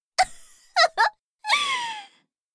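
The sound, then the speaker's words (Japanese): A person is crying: a short sob, then two quick sobbing bursts, then a longer drawn-out wail that wavers and fades. “あらあら、だから泣かないの。”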